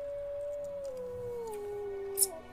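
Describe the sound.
A wolf gives one long, faint howl, a sustained tone that drifts slowly lower over a couple of seconds before fading.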